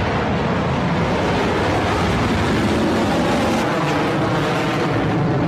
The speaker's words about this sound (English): Stage 1 propulsion is nominal. Vehicle is supersonic. Well, after a brief hiatus, Electron is back in the skies heading to orbit.